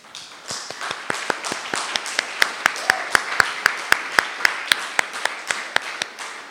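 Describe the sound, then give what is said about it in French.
Rhythmic clapping from an audience at a church service, sharp even claps on a steady beat, building slightly in loudness and repeating many times. “Est-ce qu'on peut l'acclamer un peu?”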